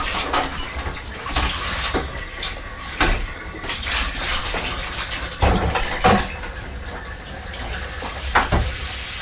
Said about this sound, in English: he's just running some water in the washing up bowl